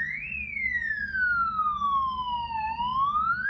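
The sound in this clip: An ambulance siren wails on its own, a single loud, high tone that slides steadily downward and then climbs again, over a low steady rumble.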